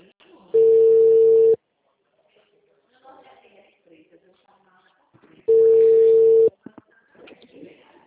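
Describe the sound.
The ringback tone of an outgoing phone call before anyone answers: two steady one-second tones about five seconds apart, with faint scattered background noise in the gap between them.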